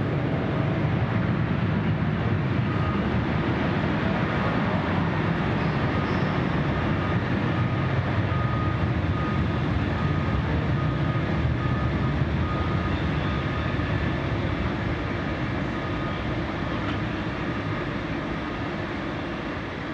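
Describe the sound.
A Mexicana airliner takes off from runway 4 central after clearance, giving a broad, continuous rumbling roar that holds steady for the whole stretch and eases slightly toward the end.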